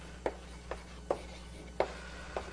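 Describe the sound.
Chalk or marker writing on a board during a lecture on order statistics and selection algorithms: five separate quick scratchy strokes, spaced irregularly over a faint steady hum, with no talking.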